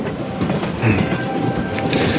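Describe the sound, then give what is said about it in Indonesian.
A train's steady rumble and rattle of rolling wheels as it reduces speed to a very slow crawl. The noise is dense and even throughout and has no voices. “Ketika aku bangun, kulihat kereta ini menurunkan kecepatannya. Kini kereta berjalan sangat pelan.”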